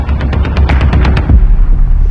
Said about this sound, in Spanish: intenta derribar el dron con su rifle de caza. No dejan de disparar. Son fusiles de asalto.